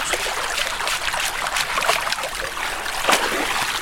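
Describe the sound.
Fresh mussels are rinsed in water, their shells acting like a strainer, giving a steady, hissing rush of trickling and splashing water with a few louder splashes.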